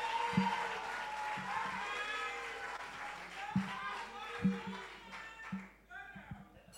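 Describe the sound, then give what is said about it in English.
An audience applauds to welcome a high school's principal speaker at a debate, with scattered clapping and a few sharper claps under a speaking voice. “put your hands together as we welcome the principal speaker for Osei Edushim Senior High School, Joycelyn Ajubi Owusu, to start the debate.”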